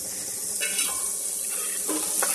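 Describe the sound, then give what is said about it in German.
Onions sauté in a pan, giving a steady, moderately quiet sizzling hiss broken by a few brief stirring scrapes and clinks. “die Zwiebeln ein bisschen angehen lassen. Das ist wichtig.”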